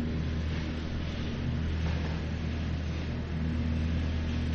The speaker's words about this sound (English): if you hear this grinding noise in the background, that's because a leaf truck is picking up leaves on Main Street.